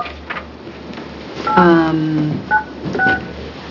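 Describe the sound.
Touch-tone telephone dialing beeps as a caller is phoned in during a panel meeting: a longer tone, then two short beeps, over low background noise.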